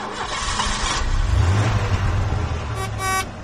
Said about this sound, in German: Kupplung treten, ersten Gang einlegen, langsam anfahren, starten Sie nochmal.